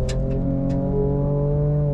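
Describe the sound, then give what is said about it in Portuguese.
A pickup truck engine with straight-pipe exhaust and no muffler revs under heavy throttle, giving a loud, steady, deep harmonic drone with a few short crackles near the start. “esse motor você ouve como se estivesse sem silencioso, se estivesse sem nada aqui. É um escape direto nessa picape. Realmente, quando você pisa fundo no acelerador,”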